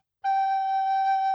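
A recorder plays the note G as a single clear, steady, mid-high tone. It begins after a moment of silence and holds evenly to the end.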